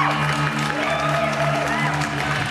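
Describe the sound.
Audience applause and cheering used as a sound effect: a dense, steady wash of clapping and crowd noise that holds at an even level for the whole clip, with some sustained tones underneath.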